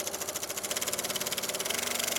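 A sewing machine stitching yellow-orange fabric meant to cover floating pontoons for an art installation, a steady, rapid mechanical chatter that holds an even pulsing rhythm throughout.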